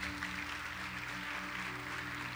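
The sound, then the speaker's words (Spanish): Congregation applause at a church service: a steady wash of clapping over sustained low tones, holding an even level throughout with no talk. “¿Alguien puede darle un aplauso al Señor por eso?”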